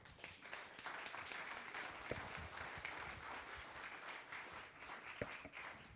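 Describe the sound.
An audience applauds to welcome a pastor onto the stage. Steady, dense clapping continues throughout with a few sharper individual claps rising above it, and the sound stays at a moderate, even level.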